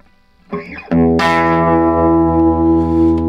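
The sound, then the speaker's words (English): Electric guitar, a Gibson 335 with humbucker pickups played straight in, a brief quiet picked figure followed by a loud, bright chord that rings out and sustains steadily to the end. “And that is straight in Gibson 335 humbuckers. Yeah. Kinda in tune, right? Kinda.”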